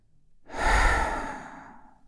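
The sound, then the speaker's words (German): A single long, breathy exhale during a guided relaxation exercise swells quickly, then fades slowly over about a second and a half. It is heard alone, with no talk. “atme diese Dankbarkeit wieder ein. So tief du kannst. Und mit dem nächsten Ausatmen”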